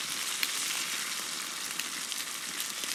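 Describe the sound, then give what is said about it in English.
Steak sizzling as it cooks in a pan: a steady, dense hiss with fine crackles and pops that holds at an even level throughout, with no voices. “Think about how a steak cooks in a pan.”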